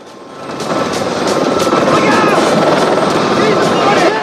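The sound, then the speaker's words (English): A helicopter flies during a chase near a pylon, its loud rotor drone with rapid blade chop swelling in over the first half-second and then holding steady and strong to the end. “The helicopter heads straight for the pylon. Its blades catch the wires and sparks fly.”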